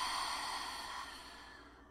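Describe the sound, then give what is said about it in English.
A deep breath taken together during a calming exercise, heard as a long, soft, airy exhale that slowly fades away over about two seconds, faint and with no talking. “And let's just take a breath in together. Breathe in. Exhale it out.”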